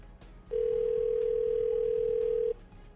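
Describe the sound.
A telephone call ringing out on the line: a single steady, mid-pitched ringback tone about two seconds long sounds clearly above faint line noise.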